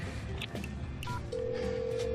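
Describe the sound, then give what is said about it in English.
Telephone dialing tones as a number is punched in to call a friend: a few short beeps over a busy background, then a steady held tone. “I'm calling Allison.”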